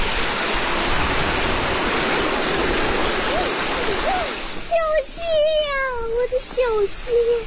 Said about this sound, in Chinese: 小溪， 一进入景区呢就是山泉水，水面非常的清澈，既宽又清，颜色呢是碧绿的。